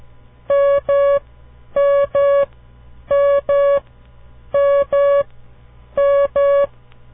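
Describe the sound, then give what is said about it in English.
Morse code for the letter M: five evenly spaced pairs of long, steady beeping tones, each pair a dah-dah, sounding alone at a constant pitch with silent gaps between repetitions. “Listen very carefully to this sound. Each time you hear it, try to visualize the M in your mind. Here it is, the letter M.”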